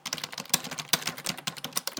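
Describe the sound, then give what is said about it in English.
Keystrokes on a computer keyboard as a message is typed: many quick, clicky taps in a fast, uneven rhythm with no talking. “And I'll type another message.”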